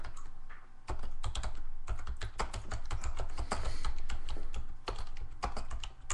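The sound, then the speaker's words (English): Rapid typing on a computer keyboard, many quick keystrokes in dense bursts with a brief pause early on, then continuous clicking to the end. “I'm so high, I can't even type. I'm Googling the CIA suicide bomber... news ticker.”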